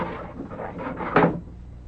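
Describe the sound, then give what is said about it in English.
A window being closed makes a faint rubbing slide that ends in a short, firmer wooden clunk. “Do you want the window closed? Yes. Yes. Better the windows are closed.”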